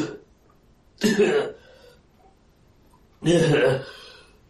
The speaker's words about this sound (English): she begins to cough more severely, and she is coughing up what look like black chunks of blood at this point.